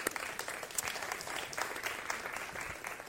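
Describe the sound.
A church audience applauds to welcome guests at a morning service, a soft, even patter of clapping that stays steady throughout.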